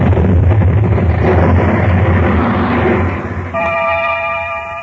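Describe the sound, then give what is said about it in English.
An explosion sound effect for a sudden blast during household chores in 1921: a loud, dense roar that holds steady for almost the whole clip. A steady horn-like tone joins near the end. “an investigation into the cause of the explosion was conducted.”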